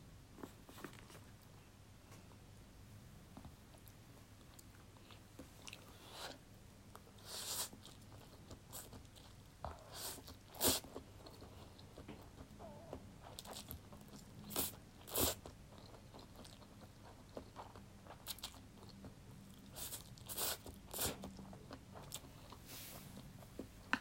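Dried noodles are chewed and crunched, with many crisp, irregular bites and crunches scattered over a low, quiet background and no talking.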